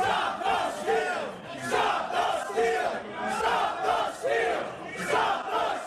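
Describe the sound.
A crowd of rioters roars during the attack on the U.S. Capitol: a dense, loud mass of shouting voices that swells in repeated chanting surges, steady throughout with no single speaker standing out.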